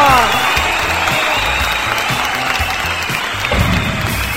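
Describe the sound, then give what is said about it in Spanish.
A live audience cheers and applauds, a loud, dense blend of clapping and crowd noise holding steady throughout with no pauses. “¡Ay, el público está prendidísimo!”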